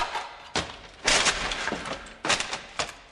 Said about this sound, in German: Da zückte der steinerne Ritter das zweite Schwert. Das wog 77 Pud. Doch auch diesmal zerbarst die Klinge an Vanyas Lanze.